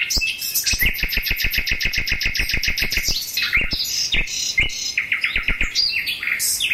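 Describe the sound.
Caged birds sing in a flower greenhouse, pouring out rapid trains of bright, high chirps in quick repeated runs, with short pauses between phrases and a few separate tweets toward the end.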